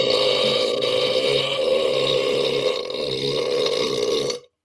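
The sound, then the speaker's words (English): One long, loud burp that rumbles steadily for about four seconds with a rough, throaty tone before cutting off abruptly. “that was an impressive burp. That was very impressive.”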